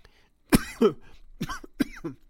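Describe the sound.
A man reading aloud from scripture coughs and clears his throat. A few short, husky coughs and throat-clearing bursts come in quick succession, with no words.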